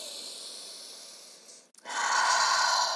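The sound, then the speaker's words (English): A deep breath drawn in and let out during a guided meditation on a mat: a long, airy hiss that breaks off briefly in the middle, then returns louder and steady, with no talk. “Now, feel the breath. Big inhalation here. And exhalation.”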